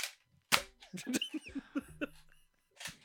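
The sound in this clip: Sharp gunshot-like bangs fired right beside the microphone, a few loud cracks spread across the moment, with people talking and reacting in between.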